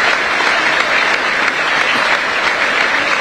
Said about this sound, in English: As the stretcher is now being taken off the pitch to unanimous ovation from the racecourse crowd.